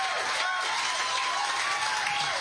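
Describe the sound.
Audience applause and cheering welcome a performer to the stage at a blues show in St. Elmo, a dense, steady roar of clapping and crowd noise with whoops that holds throughout.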